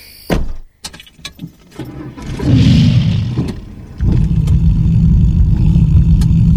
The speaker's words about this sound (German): Ist ja irre. Schnellstes Auto, das es zurzeit gibt in Israel.